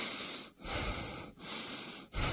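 Deep breathing in, heard as loud, airy hissing drawn out over a few long breaths with brief pauses between them and no talk.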